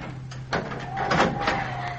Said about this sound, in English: Quick, quick, shut the door.